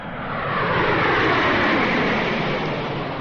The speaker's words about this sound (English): Attention, please. OAS Flight 144, now leaving on runway 2 for Argentina.